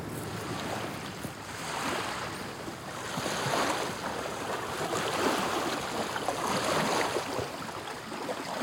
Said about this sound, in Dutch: Er komt een boot met een symbolische naam langs.